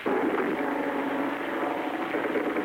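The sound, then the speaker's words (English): Japanese bomber aircraft fly overhead during a bombing raid on Manila, a steady, dense engine drone that holds at an even, fairly loud level throughout, with no talk. “Manila has just been bombed. Japanese bombers...”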